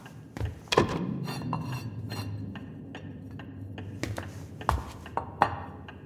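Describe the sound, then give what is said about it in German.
Plates handled and set down as markers make a few sharp clinks and light knocks scattered over a low, shuffling background. “Wie markieren wir das? Natürlich stilecht mit einem Teller.”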